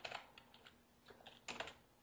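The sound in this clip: Quiet typing on a computer keyboard, with irregular clusters of light clicking keystrokes separated by brief pauses.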